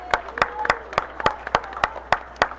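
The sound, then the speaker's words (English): Audience at a school kindergarten event clapping in unison, about a dozen sharp, evenly spaced claps at a brisk steady rhythm, fairly loud with no voices. “let's just applaud her, let her know, support her, we understand.”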